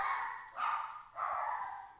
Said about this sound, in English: Excuse the dog. Bear with me.